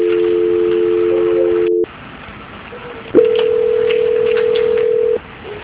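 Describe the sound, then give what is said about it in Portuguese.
Telephone line tones during a call transfer: a steady dual tone for nearly two seconds, a short quiet gap, then a single sustained slightly higher tone lasting about two seconds. “vou transferir para o setor de auditoria, tá bom? É só aguardar um minutinho. Transferência.”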